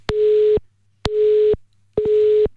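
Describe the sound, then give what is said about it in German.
A telephone busy signal plays while calling someone back after a dropped connection: three loud, evenly spaced beeps of the same length and steady pitch, separated by short silences. “Dann rufen wir ihn doch gerade mal zurück.”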